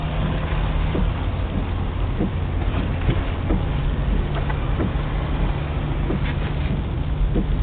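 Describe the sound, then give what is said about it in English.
Car ride home, a steady, low engine and road rumble that stays even and fairly quiet throughout, with a few faint knocks and no one talking. “This is the sound of your ride home with Dad after he caught you vaping.”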